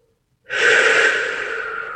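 A deep breath is taken during guided meditation: a brief silence, then one long, steady, airy inhalation that holds its strength to the end.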